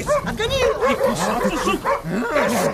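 Dogs barking and yipping in quick, overlapping bursts, loud and continuous, with sharp high-pitched yelps between the deeper barks.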